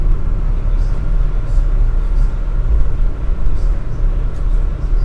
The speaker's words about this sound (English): And that's where we are right now, in this vast underground train structure.